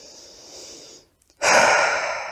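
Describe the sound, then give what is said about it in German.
A deep breath in and then out during a guided meditation: a soft, airy inhale fades into a brief silence, followed by a louder, fuller hissing exhale that slowly tapers off. “Und nun atme ein letztes Mal tief ein und aus.”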